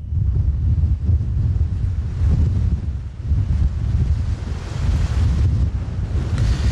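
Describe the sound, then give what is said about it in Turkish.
Strong storm wind roars along the coast at Marmara Ereğlisi in Tekirdağ, a storm arriving with heavy showers; loud, continuous buffeting gusts rumble low and heavy, rising and falling without pause and with no voices. “Tekirdağ'da sağanak yağış bir yandan, diğer yandan da fırtına etkili oluyor.”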